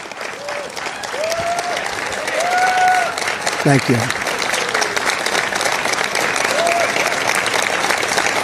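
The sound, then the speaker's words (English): Scattered clapping from an audience at a political speech announcing withdrawal from the Paris Climate Accord: loose, uneven applause that swells briefly and then thins out, with voices calling out over it. “Aside from that rather staged scattering of applause”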